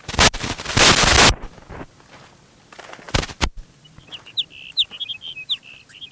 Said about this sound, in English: sage sparrow number two.